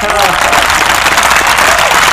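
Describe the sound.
A crowd applause sound effect, loud and continuous: a thick wash of clapping that stays at an even level throughout.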